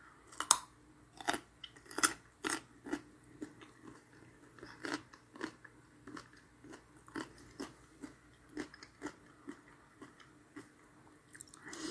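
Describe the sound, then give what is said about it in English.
Crisp crunching of snacks eaten with Southwest Ranch dip: many sharp bites and chews in a steady, fairly quick rhythm, moderately soft and close, with no talk. “I'm eating these with um, Southwest Ranch, um, which I saw at the grocery store”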